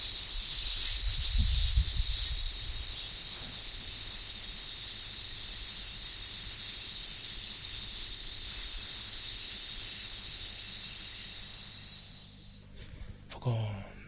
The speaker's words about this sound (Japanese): はい、じゃあもう一回、今度はスーッというふうに負荷をかけて発生しますね。吐くときに吸って吐きます。